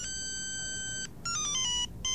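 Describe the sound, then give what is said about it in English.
An electronic phone ringtone sounds loudly on its own: a bright, held multi-tone chord, a short pause, then a quick stepping run of high beeping notes that begins to repeat after another brief break. “It's the terror ring. Uh-huh. That's what I call it. That's the ominous ring there.”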